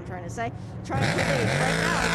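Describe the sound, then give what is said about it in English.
Race car engine roaring as it leaves the pit box during a yellow-flag period in a race, a loud wavering engine note that swells in after a man's talk and carries on under his voice. “That is the roar of the number 7 from 47 Motorsport trying to go back out.”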